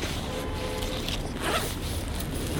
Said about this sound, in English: Putting tape over my mouth now because I'm shy.